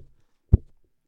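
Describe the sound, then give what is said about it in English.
Two dull, low thumps of a microphone being hit against a person's head, spaced about half a second apart in near silence. “In case you're wondering what that sound is, I'm hitting the microphone against my head for how stupid that sounds.”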